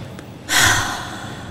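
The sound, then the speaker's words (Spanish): A deep breath is let out through the open mouth during a relaxation exercise: one abrupt, breathy exhale that starts loud and slowly trails off, with no talk. “vamos a respirar profundo y cuando sacan el aire lo van a sacar abriendo la boca”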